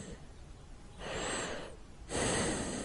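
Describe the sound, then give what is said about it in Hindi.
Faint breathing of someone standing nearby in a silent room: two soft, airy breaths with a quiet hush between them. The second breath is slightly louder and longer. No talking. “किसी के सांस की हल्की हल्की सी आवाज, जैसे कोई पास में खड़ा सांस ले रहा हो।”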